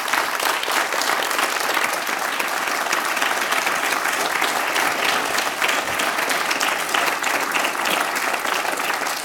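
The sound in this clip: A live show audience applauds in thanks: dense, steady clapping, loud and unbroken for the full length, with a faint crowd murmur beneath.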